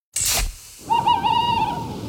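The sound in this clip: An owl gives a single wavering, tremulous hoot held for just under a second. The hoot is mid-pitched and clear, and it follows a short burst of noise at the start.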